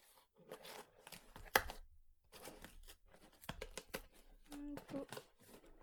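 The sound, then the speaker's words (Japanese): A package being opened, with faint bursts of crinkling, rustling and tearing and one sharp snap partway through. The handling comes in short irregular bursts with quiet gaps between them. “あ、え、これどうやって開けるの。こうか。”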